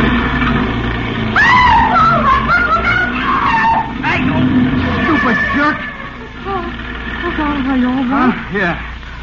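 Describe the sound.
A car skids at a street corner as its driver nearly hits a pedestrian stepping off the curb. A long, loud squealing screech runs over engine noise, with voices mixed in.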